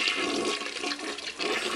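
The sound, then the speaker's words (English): A toilet flushes with a continuous rush of swirling water, fairly soft and steady with slight surges throughout. “Flush it down the toilet”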